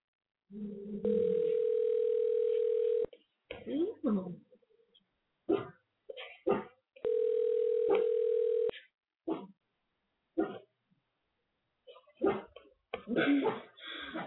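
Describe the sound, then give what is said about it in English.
Telephone ringback tone while a call is being placed: two long, steady, mid-pitched tones of about two seconds each, separated by a long gap filled with short bursts of talk and other small noises. “I'm going to give a call now. And Sir Theodore gave it two rousing whoop whoops of approval. So it's always nice to hear, I'm sure. So yeah, so I'm calling now.”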